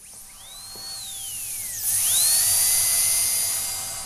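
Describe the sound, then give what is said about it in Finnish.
A dentist's drill with a diamond bur at a university dentistry department gives off a high, piercing whine that slides down in pitch and then climbs back up, droning on steadily with a slightly louder middle. “Siinä se on ääni, joka herättää meissä varmasti kaikissa tunteita, eli hammaslääkärin poran ääni.”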